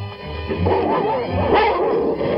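A dog barks, yips and whimpers in a steady, continuous stream of loud calls, with no clear pauses between them.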